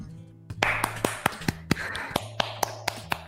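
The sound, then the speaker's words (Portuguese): Hands clap many times in a steady, evenly spaced rhythm. Each clap is sharp and moderately loud over a faint, low background hum. “Eu vou bater palma.”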